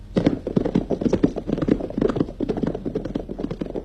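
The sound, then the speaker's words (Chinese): Horses' hooves clip-clop rapidly as military officers and guards gallop on horseback, many quick, irregular hoofbeats at a steady loud level with no talking. “罗中环和参谋警卫员骑马赶往八纵队，八纵队司令员也骑马迎来”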